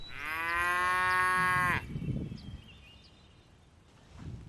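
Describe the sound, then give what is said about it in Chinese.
A single long, loud cow moo from a herd of cattle being counted after a midday rest, followed by quieter low background noise. “午休结束，保利高清点牛群数量。”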